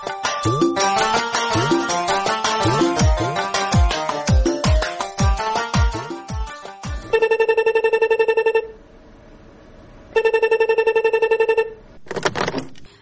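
A telephone ringtone in a dramatized radio scene sounds in two steady, bright electronic bursts separated by a short pause, after a passage of music, with a brief scraping noise near the end.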